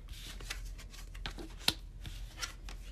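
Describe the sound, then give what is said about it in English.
Tarot cards are handled and turned over from face down, making soft papery flicks and light taps. The sounds come as a few faint, scattered clicks over a quiet background. “So let's see, these cards all came out face down, so let's see what we've got.”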